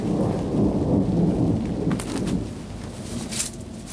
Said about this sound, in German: Ein Gewitter, wie ich es noch nicht erlebt hatte.